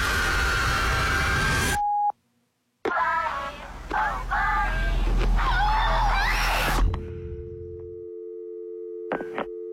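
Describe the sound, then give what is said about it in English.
An answering machine message tone: a steady, sustained electronic beep holds for a few seconds after a stretch of other noise, with a couple of short beeps at the very end. “please leave a message after the tone and we will get back to you.”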